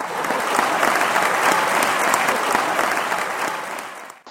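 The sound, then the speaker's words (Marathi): Audience applause fills the space, a steady, loud wash of many hands clapping for about four seconds before tapering off at the end, with no talking. “एकदा टाळ्या वाजवा जोरदार.”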